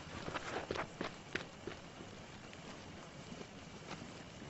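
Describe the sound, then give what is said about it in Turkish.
Faint footsteps walk across grass, a few soft rustling steps standing out early against a steady breezy background noise before fading into it. “otların üzerinde yürüyor.”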